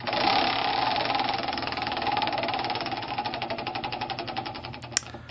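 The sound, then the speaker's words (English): Spinning prize-wheel sound effect: a rapid, rattling ticking that gradually slows as the wheel loses speed, ending with a single sharp click. “shall we spin the wheel of history and see what else comes up?”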